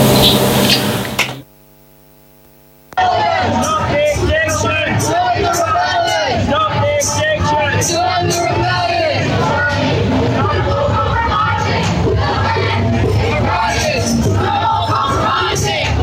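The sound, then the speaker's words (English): Crowd noise from an Extinction Rebellion civil resistance protest. After a brief opening sound and a short, nearly silent gap, loud, dense massed voices of shouting, chanting and babble continue throughout. “That is the sound of civil resistance there from this morning, Extinction Rebellion protest.”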